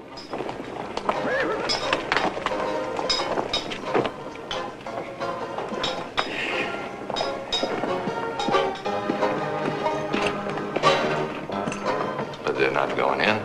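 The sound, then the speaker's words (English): Horses with riders arriving along a western town street, hooves clopping in uneven runs with a whinny, voices speaking over the hoofbeats. “They tie up their horses as two more riders arrive further down the street and walk into the saloon bar.”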